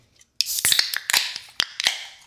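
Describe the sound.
A microphone being tapped: many sharp, irregular taps and snappy crackles over a bright hissing noise, with no talk.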